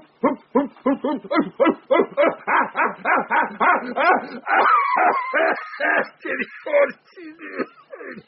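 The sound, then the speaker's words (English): An alpha male ape in display gives a rapid series of many short, harmonic hoots. They pulse loudly at a quick, steady rhythm, and the later calls grow longer and more drawn out. “The sway of the body, the swagger, foot to foot, foot to foot, foot to foot, the steadily rising hoop, hoop.”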